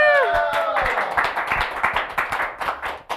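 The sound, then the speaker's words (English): A studio audience claps in a dense, irregular stream of quick, sharp hand claps that thins out toward the end. A voice is briefly heard at the start. “First of all, big hand for our studio audience.”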